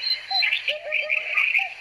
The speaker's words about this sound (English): There's the hoopoe for you.